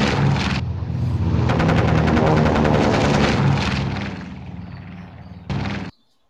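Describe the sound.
Rapid automatic gunfire from a video game as an ally shoots at monsters. A dense, loud rattle of shots runs over a rumbling background, then stops, and one short blast follows near the end.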